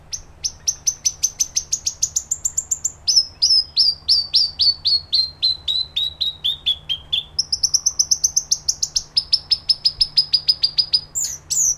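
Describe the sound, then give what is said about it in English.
North Island robin song, from birds released into a forest reserve: a long, loud run of rapid, high, clear whistled notes in repeated phrases, some gliding slightly downward, with no voices. “That is the song of the North Island robin, or the totowai”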